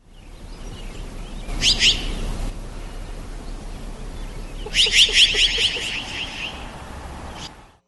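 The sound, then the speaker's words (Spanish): Harsh, chattering calls of a chara, a jay species, come in two bursts of rapid, high-pitched notes over a steady hiss of background noise. The second burst is longer and slightly louder. “El primero es un ave y se conoce popularmente como chara. Vamos a escucharla.”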